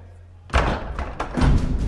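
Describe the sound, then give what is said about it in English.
White carved wooden double doors open with a heavy wooden thud about half a second in, followed by a sustained rumbling clatter that swells again toward the end. “They open white, carved wooden double doors.”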